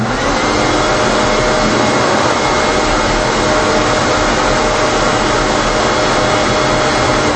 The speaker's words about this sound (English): So the smaller hose does restrict the airflow on some of these bigger vacuums, but that gives you a good idea of what it sounds like.